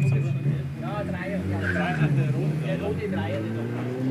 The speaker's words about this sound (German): So, dann kommt hier ein Mercedes. Was haben wir denn da? Das ist ein 500 SE Facelift, Baujahr 88.